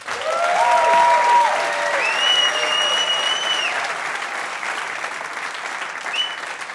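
An audience applauds as a musician and his band are welcomed back onto the stage at a live music show, a dense, steady clapping that holds strong and then eases off slightly toward the end.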